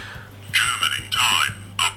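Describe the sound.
A silver radio-controlled alarm watch beeps as it leaves its menu: a few short, bright electronic bursts over a low hum.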